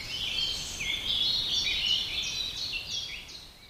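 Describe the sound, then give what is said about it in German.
Birds sing in the treetops of an old oak in May, a stream of bright, high chirps and warbling phrases layered over one another, moderately loud and continuous against a soft background hiss, with no voices. “Vögeln in den Wipfeln der altehrwürdigen Eiche ist das wohl recht. Sie feiern auf ihre Weise. Den Mai, den Frühling und die Rückkehr des Lichtes. Sie singen und füttern ihre Jungen.”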